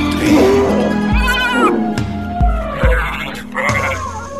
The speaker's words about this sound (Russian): Смотри, ты видишь, все козлы собрались.